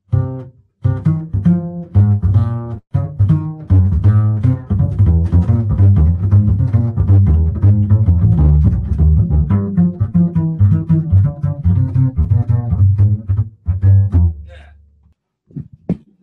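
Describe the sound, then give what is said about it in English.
A bass plays a pattern moving in fourths over an F blues, a steady stream of loud plucked notes in even rhythm, ending with a brief pause and a few final notes. “So on bass, there's a lot of things that I can do. For instance, if I played that same pattern I was talking about over blues, if I did an F blues, it'll sound like this.”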